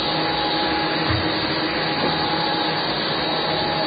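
A vacuum cleaner runs in a radio studio, a loud, constant whirring roar that holds steady without pause.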